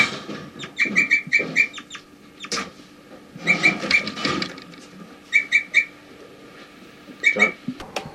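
A bird gives flight calls: many short, high, chirping notes in quick clusters, separated by brief pauses, over a faint background.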